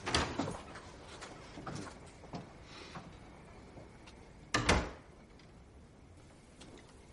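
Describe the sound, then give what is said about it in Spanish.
A man opens a drawer in a tense thriller-drama scene. A few soft knocks and clicks are followed by one louder sliding thump near the end, then quiet. “el hombre abre el cajón y saca la pistola envuelta en un paño.”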